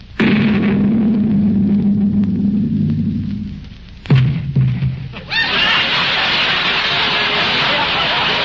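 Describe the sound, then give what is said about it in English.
A cannon shot fired across a ship's bow: a sudden sharp blast cuts in after a voice, followed by a loud, sustained rushing roar that lasts to the end. “Mate, fire a shot across her bow. One shot across the bow. Fire!”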